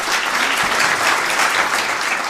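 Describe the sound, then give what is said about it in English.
Applause from an audience welcoming a speaker at a talk, dense and steady clapping that fills the whole moment without voices. “I would like everyone to give Scott a warm welcome.”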